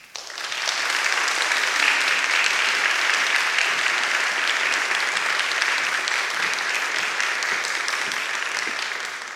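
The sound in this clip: Steady audience applause welcomes the opera ensemble Capitol Opera Richmond, a dense, continuous clatter of many hands that holds at a fairly even level for about nine seconds without any talk.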